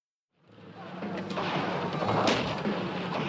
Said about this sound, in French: Les gardes tirent alors plusieurs coups.